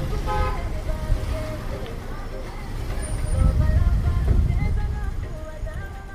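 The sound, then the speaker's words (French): Steady road traffic on a damaged, pothole-ridden stretch of a national highway in Burundi: a continuous low engine rumble that swells louder midway and then eases slightly. “Nous sommes sur la route nationale numéro 3, Bujumbura-Rumonge, dans sa partie délabrée.”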